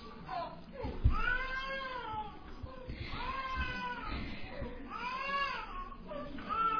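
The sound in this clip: A hungry young girl cries in a few drawn-out, arching wails, fairly faint, with a person talking at the same time.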